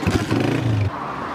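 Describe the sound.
A motorcycle starting up, its engine giving a loud, low, throbbing rev for under a second before dropping away into a steady hiss.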